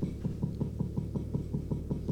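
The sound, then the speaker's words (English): Knocking on a closet door: a long, even run of many dull, low knocks at a quick, steady pace, with no voices. “I think someone's knocking at the closet door.”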